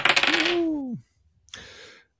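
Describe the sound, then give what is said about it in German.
A dice roll in a game is triggered with a button press: a rattling burst with a falling tone ends after about a second, and after a short pause a second, briefer rattle follows. “Wollen wir den ersten Würfel rollen lassen, mal gucken, was uns entgegenkommt.”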